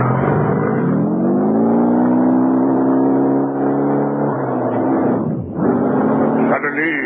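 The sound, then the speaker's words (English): A messenger's motorbike engine drones as it races off, its pitch rising early and then holding as a loud, steady hum, with a brief dip near the end. “I grabbed the messenger's bike and raced towards headquarters.”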